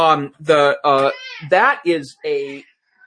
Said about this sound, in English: I have to apologize, my cat is freaking out.